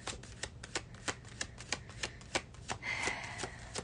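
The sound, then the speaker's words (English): Tarot cards shuffled before a card is pulled: a series of crisp, separate flicks, then a longer continuous riffling burst toward the end. “can you pull a card for my love life? Yes. Let's see”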